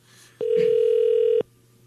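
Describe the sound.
Ringback tone of an outgoing telephone call: one steady, loud held tone lasting about a second, heard alone with no voices.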